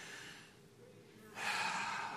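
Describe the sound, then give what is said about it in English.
A deep breath is drawn slowly and softly at first, then turns into a louder, airy rush of breath in the second half, with no words spoken. “Can you take like this deep breath?”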